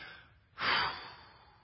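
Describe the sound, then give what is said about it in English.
A single deep breath, sharp and breathy, swells quickly, then slowly fades into quiet. It is heard alone, with no talk. “A lot of times we take a deep breath.”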